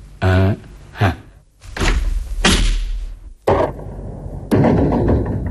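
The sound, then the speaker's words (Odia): A metal door chain is unfastened and a door is opened, heard as a series of loud clunks, rattles and thuds of varying weight, with brief pauses between them. “କବାଟରେ ଶିକୁଳି ଲଗା ଯାଇଛି। ମୁଁ ଶିକୁଳି ଖୋଲିଦେବି”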